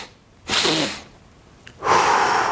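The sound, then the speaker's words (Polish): Breathing exercise for calming stress: two loud, rushing breaths through the airway, the first about half a second long, the second starting more sharply and still going at the end. “zrób dwa wyraźne wdechy i jeden dłuższy wydech, czyli coś w stylu”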